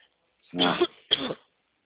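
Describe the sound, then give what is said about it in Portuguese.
Two short, harsh coughs from a person with the flu during a phone conversation about a loan. The bursts are separated by a brief gap, and the first is slightly longer. There is silence before and after. “desculpa pela tosse, é que eu peguei uma gripe”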